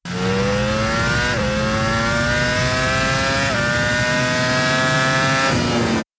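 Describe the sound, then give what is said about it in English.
Motorcycle engine with an aftermarket exhaust revs in a loud, steady drone whose pitch climbs slowly, broken by three brief dips where the note drops before rising again. “And this is going to sound different because it's aftermarket exhaust. But as this gets up in the revs, it's very similar.”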